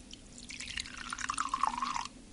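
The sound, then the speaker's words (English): Vinegar runs into a glass of bubble bath mixture as a faint trickle with small drips and gurgles for about two seconds, then stops. “I've got some vinegar here. So if I take some of this and pour it into the glass with the bubble bath mixture.”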